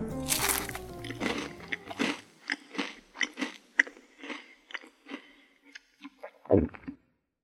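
Crunchy chewing and biting into a fried cheese minced-meat cutlet and a garden salad with no dressing. Many irregular crisp crunches and moist chews follow one another, with a louder bite near the end.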